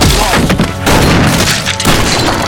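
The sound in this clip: Shotgun blasts in a close-range gunfight with bounty hunters: a few loud, booming blasts with crashing, thudding noise, separated by brief dips, filling the whole clip.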